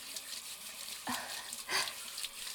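Hot water runs from a shower in a steady, soft hiss of spray, with a couple of brief splashing surges.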